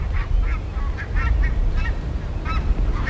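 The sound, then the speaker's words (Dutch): Greylag geese honk as they fly over, many nasal calls in a loose series, clear above a steady low rumble. “Grauwe gans over, hè?”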